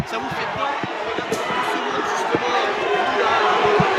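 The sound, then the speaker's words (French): A crowd of fans welcoming a team on arrival: a continuous murmur of chatter and scattered calls running under a person speaking throughout. “vous voyez l'accueil qu'il y a avec tous les fans, on est content d'être là. Ça vous fait quoi justement de voir ça vous fait quoi de voir tout ce monde justement?”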